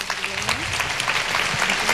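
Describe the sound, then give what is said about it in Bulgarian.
Applause from an audience at a live music event on stage: many steady, dense hand claps blend into an even wash, with a faint voice or two underneath. “Отново аплодисменти”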